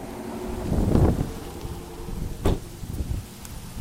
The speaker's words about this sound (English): Excuse the wind, you guys. It's very windy out right now, as it always is here in Houston.